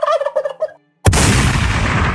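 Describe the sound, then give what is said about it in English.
Wild turkey gobbling in a video game: a fast, warbling gobble of several pulses, then a brief silence and a sudden loud burst of broad noise that lingers to the end. “Finally, go hunt some wild turkeys.”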